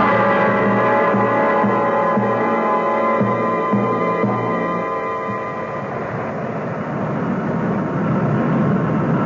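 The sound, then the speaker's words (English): An airplane coming in to land gives a loud, continuous engine drone with a low throbbing hum and steady tonal layers that roughen into a broader rushing noise in the second half. “They're coming in for the landing now.”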